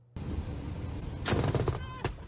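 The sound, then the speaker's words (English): Rapid gunfire rings out as a dense run of sharp, loud bursts that rises over a steady noisy background and continues to the end. “It's like rapid fire.”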